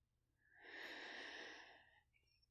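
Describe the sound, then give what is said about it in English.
A single long, slow breath: a soft, airy rush that swells, holds steady for about a second, then fades. It is quiet and heard alone. “takes a breath, holds it, and then lets it out slowly.”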